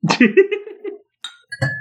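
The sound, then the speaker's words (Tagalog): Glasses clink together in a cheers toast as friends drink, two bright ringing clinks following a short stretch of voice. “Ito na, cheers na. Okay. Inom na.”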